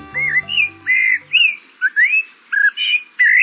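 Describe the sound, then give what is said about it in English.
Eurasian blackbird song: a run of loud, clear fluty phrases that warble and swoop, separated by short pauses, beginning over a fading low musical tone. “This bird song seems familiar, intriguing. It's the song of the Eurasian blackbird.”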